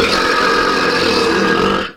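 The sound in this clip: A single long, loud, rasping burp, from a burping record attempt measured at 109 decibels, holds steady for about two seconds before tailing off abruptly, with no talk.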